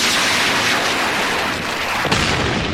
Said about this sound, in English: Iraqis again, launching Sidewinder missile.